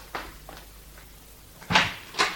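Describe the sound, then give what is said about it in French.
A house's front door is opened: a few faint clicks and taps, then two louder knocking thumps of the latch and door near the end. “Madame, on sonne à la porte d'entrée. Oh, ne vous dérangez pas, Madame Buck, je vais ouvrir.”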